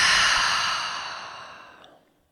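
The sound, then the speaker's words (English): A long, deep exhale during a guided breathing exercise, a breathy rush of air that starts loud and fades gradually into silence over about two seconds. “Let's take a really full breath in through the nose, out through the mouth.”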